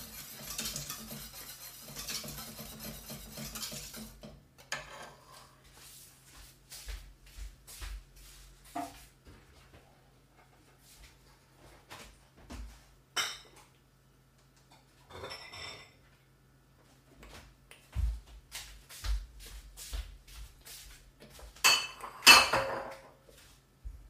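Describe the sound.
Metal utensils clink and scrape against a pot as it is stirred during cooking, just after the heat is turned off and before bottling. Many scattered, irregular knocks and chinks of varying loudness, with a denser burst of clatter near the end and no talk.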